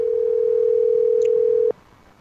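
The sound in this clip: A telephone line tone as a call goes to voicemail: one continuous, steady mid-pitched tone that holds for under two seconds, then stops abruptly and leaves a low background hiss.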